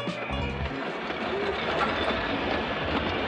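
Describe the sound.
A train in motion, a steady, loud rumble with a rhythmic clickety-clack of wheels on the rails that carries on evenly throughout.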